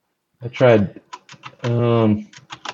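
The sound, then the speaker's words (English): Keyboard shortcut keys such as shift and tab pressed on a computer keyboard: a few light, quick clicks between stretches of a person talking. “I tried shift tab to see if I could. I'm gonna alt tab to try to do this again”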